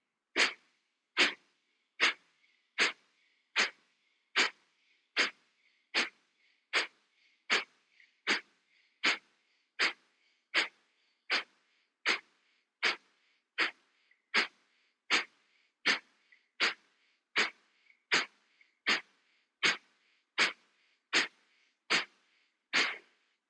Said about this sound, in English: Now we will do Kapalabhati, three rounds of 30 pumpings. Inhale towards the belly and begin.